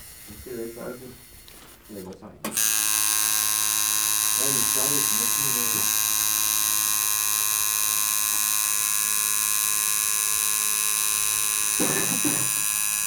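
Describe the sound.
A tattoo machine buzzes while tattooing a calf, starting abruptly after a few seconds of talk and then holding a steady, high, droning hum to the end, with voices speaking over it.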